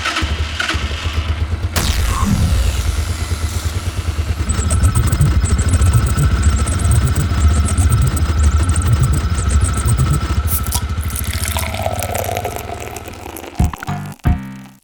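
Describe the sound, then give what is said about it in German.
A machine being switched on in a video game: a loud, steady mechanical rumble with a rattling, engine-like texture runs throughout, ending in a few sharp clunks. “Und ich würde an dieser Stelle mal hier eine neue Maschine anwerfen. Den Xeno Randomizer oder was auch immer. Schmeiß sie an. Wird die jetzt mal aktivieren.”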